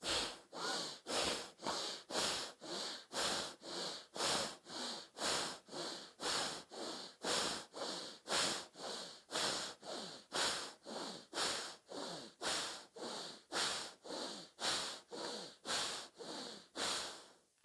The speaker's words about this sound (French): Grande inspiration à gauche. On ferme à gauche, on ouvre à droite. On y va encore une quinzaine de fois à droite.